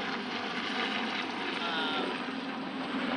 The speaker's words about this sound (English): Oh, hold for plane. Nope. What's going on? Hold for helicopter.